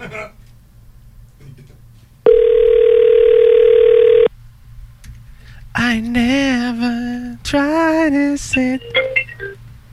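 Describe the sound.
A telephone call ringing: one steady, even ringback tone lasting about two seconds. Quiet background comes before it, and a voice speaks after it.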